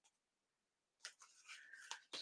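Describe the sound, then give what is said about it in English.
A playing card is drawn from a deck with a few quiet, papery scrapes and a longer sliding rustle, all coming after a stretch of near silence. “I'm going to pull a card for you. This is a card for you here.”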